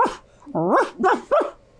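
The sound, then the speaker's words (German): A person imitating a dog barking, giving a quick string of short, yelping woofs with wavering, bending pitch, the later ones loudest, with no other talk. “Look, I'm not a dog. Also, ich bin zwar kein Hund. But I can bark like a dog. Aber ich kann bellen wie ein Hund.”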